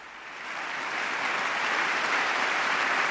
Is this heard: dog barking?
no